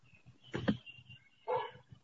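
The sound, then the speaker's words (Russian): A dog barks twice, two short, sharp barks about a second apart, over faint low background noise and with no talk. “Это уже не моя собака.”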